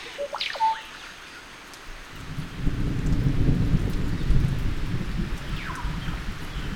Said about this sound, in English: As luck would have it, a thunderstorm soon rolls in, which subdues the bird song.